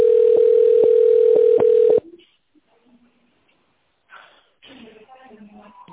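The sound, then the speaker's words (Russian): Telephone ringing tone while a call is being transferred to an administrator: one steady, loud, mid-pitched tone holds for about two seconds with faint regular clicks, then cuts off into near silence before a voice begins speaking. “Или оставайтесь на линии для соединения с администратором. Вызов переводится на администратора.”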